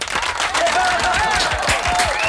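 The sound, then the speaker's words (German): A short round of applause in a radio studio during a music marathon, quick clapping heard under a talking voice, staying fairly loud and even throughout. “Das ist der Radio Arabella Musikmarathon und jetzt gibt's bitte mal einen kurzen Applaus.”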